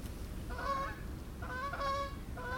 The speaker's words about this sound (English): And when I open it up, it's full of the sound of geese.